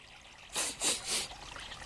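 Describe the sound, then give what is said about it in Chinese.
Water trickles at a clean waterside in three short splashing bursts, fairly faint, over a low steady background hush. “我们来到了水边，水好干净，闻着鼻子都像清了一样。”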